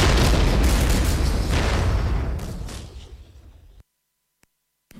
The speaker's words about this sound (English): you're standing right in the middle of a minefield. Oh, get ready to explode.